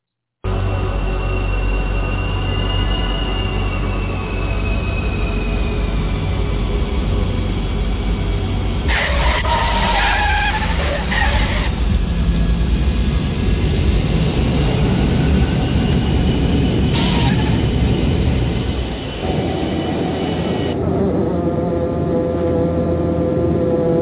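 Airplane landing sound effect: a loud, continuous engine roar and rumble with a thin whining tone, running the whole stretch, with brief surges in the middle and a shift to a steadier, lower hum near the end.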